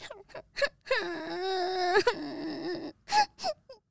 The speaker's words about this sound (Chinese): 花花没办法，蹲在地上哭了起来。